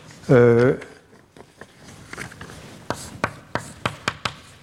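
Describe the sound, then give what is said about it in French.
Writing terms on a board: after a brief voiced sound, soft scratchy strokes give way to a steady run of sharp, evenly spaced taps and ticks toward the end. “On les oubliera dans la suite, mais je vais quand même les écrire pour une fois.”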